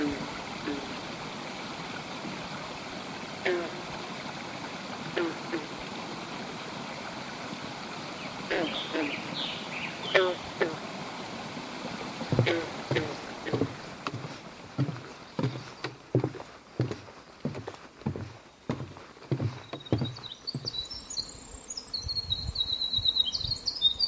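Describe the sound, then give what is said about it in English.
Calm beaver pond ambience heard from a canoe: a steady water murmur runs throughout, with a series of soft knocks and splashes, plus a few faint bird chirps. “We've just come on a beautiful, calm beaver pond. I'll just let you hear that now.”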